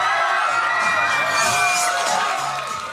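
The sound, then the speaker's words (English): A TRL studio audience of young fans screams and cheers at MTV, a continuous, loud, high-pitched roar of whoops and shrieks that eases slightly at the end. “They scream with that enthusiasm you only have before you've learned about taxes or paying rent. They lift up their arms in praise, wave poster board signs, and they all look up to one place, the studio perched above them.”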